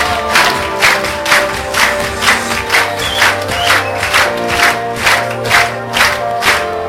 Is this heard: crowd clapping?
yes